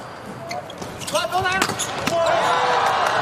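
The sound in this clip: A ball is struck for a serve in a men's volleyball match involving Slovenia's team, a sharp thump among a few other impacts beneath a commentator's voice.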